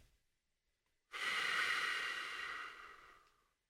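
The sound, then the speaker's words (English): A single deep, slow breath in during a guided relaxation exercise. The soft, airy hiss swells quickly, holds, then tapers away gradually, heard alone against silence. “Hold your head high and take in a deep, cleansing breath. In.”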